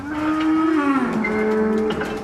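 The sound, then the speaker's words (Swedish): A dairy cow lows during the spring release of 55 milking cows to pasture at a farm near Umeå, Sweden: one long, loud, sustained moo whose low pitch steps down partway through, with no talking over it. “Under förmiddagen har Forslunda utanför Umeå haft kosläpp. Så här lät det när reporter Elin Moberg gav startsignalen till 55 mjölkande kor.”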